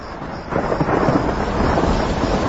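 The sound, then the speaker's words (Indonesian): Heavy rain pours down with rumbling thunder. A steady, dense roar starts quieter, swells after the first moments and stays loud to the end. “tiba-tiba hujan turun dengan derasnya”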